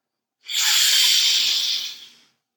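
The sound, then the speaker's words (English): One long, airy deep belly breath sounds alone, a steady soft hiss that rises in, holds for nearly two seconds and fades out. “full belly breath inhales. Light exhales.”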